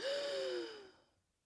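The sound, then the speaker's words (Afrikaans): A deep inhale drawn during a morning breathing exercise with outstretched arms at a sliding door: one long, airy breath with a faint voiced edge, steady at first and then fading away toward silence. “ek by my skuifdeur en doen 'n paar asemhalingsoefeninge met uitgestrekte arms. Diep in vir vier tellings.”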